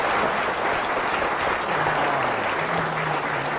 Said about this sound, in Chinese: 话说到这儿了，你要是再不唱，你是不是嫌大伙掌声不热烈呀？可以热烈一点。